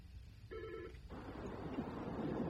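A single short telephone ring announces a caller to a radio request show, a bright tonal burst lasting about half a second, followed by a low steady hiss.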